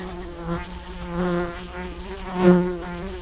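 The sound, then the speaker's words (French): A tsetse fly buzzes in a steady, continuous drone with a low hum and bright overtones, swelling a few times and growing loudest near the end. No one speaks. “La maladie du sommeil transmise par la mouche tsetse est-elle en passe d'être éliminée en Afrique?”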